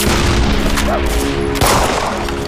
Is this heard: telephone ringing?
no

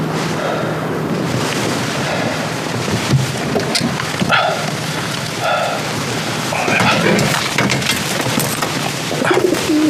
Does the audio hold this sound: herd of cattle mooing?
no

